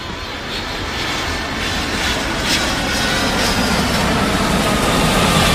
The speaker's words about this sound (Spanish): Viajaremos a lugares lejanos, así que abróchense bien los cinturones, que vamos a despegar.